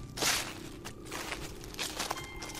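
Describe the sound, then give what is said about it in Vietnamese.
A person's footsteps approach through a misty forest as a few soft, irregular steps, faint over a steady low background. “nghe có tiếng bước chân người đang tiến tới”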